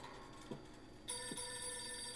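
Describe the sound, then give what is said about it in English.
An old telephone rings. Its bell starts partway through as a quiet, continuous metallic jangle after a near-silent opening. “Why don't you answer the phone? Where is it? Oh, it's nearby.”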